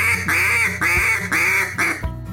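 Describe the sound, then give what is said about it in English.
A hand-blown duck call sounds a quack and greeting call sequence: five loud, raspy, nasal quacks in a steady, even rhythm, with the last one slightly shorter. “Again, the quack and the greeting call.”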